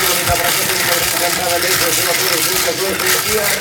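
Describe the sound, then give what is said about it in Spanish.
A lottery ball cage (bolillero) spins during a cash-prize number draw, giving a continuous rolling rattle and rumble at an even, fairly loud level. “Bueno, empezamos a girar de vuelta nuestro bolillero.”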